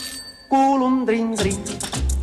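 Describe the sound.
A small alarm clock's bell rings in a quick run of bright, repeated strikes in the second half, following a sustained tonal voice, within a song.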